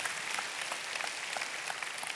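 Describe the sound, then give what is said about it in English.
A church audience applauding: dense, even clapping from many hands, continuous and loud across the whole moment. “So I want us, every campus, every location, put your hands together and make welcome all the church family.”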